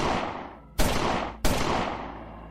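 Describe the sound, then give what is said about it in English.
Three loud gunshots fired at a car during a robbery, each a sharp blast followed by a long, fading boom. The last two come about two-thirds of a second apart. “Roy, as he heard 3 gunshots,”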